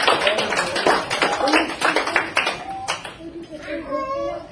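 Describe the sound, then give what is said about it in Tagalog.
Hands clapping in a quick, uneven patter. A crowd applauds under overlapping talk and children's voices, and the claps thin out toward the end. “I'm not exactly sure how to interpret a clapping.”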